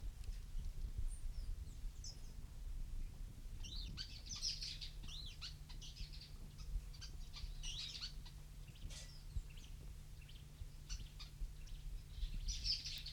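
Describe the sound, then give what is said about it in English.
Two birds calling: brief, high chirping calls that recur every few seconds over a steady low rumble of background noise, fairly faint overall. “Two birds calling.”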